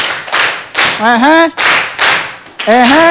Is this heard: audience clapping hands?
yes